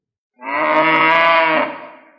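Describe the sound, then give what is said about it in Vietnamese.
An ox bellows once, alone, a single long, loud moo lasting over a second, rich and harmonic with a steady, slightly rough tone, then fading as it trails off. “Nơi phương xa truyền tới tiếng gầm của trâu vàng, sinh vật tiên kim kia đang loanh quanh ở phụ cận và giờ đã quay trở lại rồi.”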